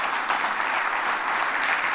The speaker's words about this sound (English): how about a round of applause?